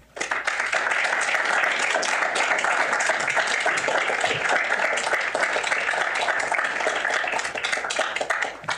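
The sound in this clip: Audience applause welcomes a speaker at a program on American, British and Irish trade relations: dense, steady clapping from many hands starts abruptly and holds at an even, loud level for about nine seconds.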